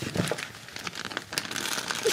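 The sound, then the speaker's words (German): Wrapping paper crinkles and rustles as a Christmas present is unwrapped, with many irregular crackling bursts and crumpling sounds packed closely together. “Also darfst du deine jetzt auspacken.”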